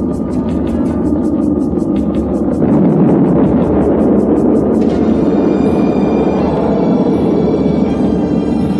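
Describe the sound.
Rocket engines roar during a launch on a multi-engine stage where engine five fails and four keep running. A dense, loud, continuous rumble with a steady high whine, its tone shifting abruptly partway through.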